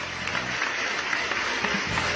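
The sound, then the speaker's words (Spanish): Applause greets a guest arriving for a talk show, a dense, even patter of many hands clapping that holds at a steady level from start to finish. “Y ahí está su aplauso.”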